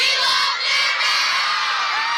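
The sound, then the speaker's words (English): An excited crowd waiting for stars to arrive cheers and shrieks, dense, high-pitched whoops and yells blending into a constant loud roar. “This is just the hype and commotion of me being in the crowd.”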